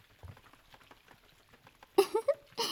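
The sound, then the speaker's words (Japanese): Cooking sounds from little foxes busy in a kitchen: faint, soft pattering and tapping, then a few sharp, bright clinks in quick succession and a brief hissing burst at the end. “さて何の音でしょう？正解は小狐たちが料理をしている音です。”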